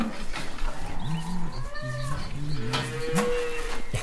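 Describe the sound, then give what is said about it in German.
Low, drawn-out calls of cows in a barn, several following one another over continuous background noise, with a few higher chirping animal sounds mixed in. “Guten Morgen, ihr Kühe.”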